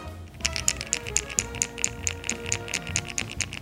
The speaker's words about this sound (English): The Zaraspook also has a single knock, which I'm a big fan of, and it sounds like this.